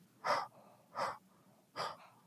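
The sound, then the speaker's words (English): Three breathy exhales into a cupped palm, each a soft airy puff of about a third of a second, evenly spaced and with no talking. “I want you to just take your palm, cup it a little bit, and exhale into your palm.”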